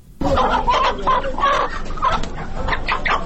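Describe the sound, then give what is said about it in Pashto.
Chickens cluck and squawk at a Sadda bazaar stall, where a shopkeeper pulls a bird from its cage to sell. The calls come loud, repeated and overlapping, with no voices. “د صدې په بازار کې دکاندار د خرص لپاره لا پنجره چرګ راوباسي.”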